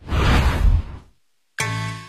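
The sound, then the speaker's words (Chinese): An arrow shot from a bow whooshes toward a target in an archery scene. A broad rushing whoosh fades into brief silence, then a sharp, loud onset with a ringing, sustained tone follows. “陈饶孜带着徒弟出场，伸手接过徒弟递过来的弓箭，摆开姿势仔细的瞄准，徒弟在旁边观看。”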